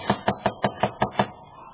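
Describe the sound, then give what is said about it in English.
Knocking on the door of a run-down boarding house: seven sharp raps in an even, steady rhythm, with no voices. “Knock again.”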